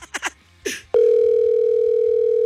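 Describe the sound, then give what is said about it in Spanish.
A telephone line tone on a call that goes unanswered: after a few brief faint sounds, a single loud, steady, mid-pitched tone starts and holds unbroken to the end. “¡No contesta la vikinga! ¡No manches! A ver, marcamos nuevamente.”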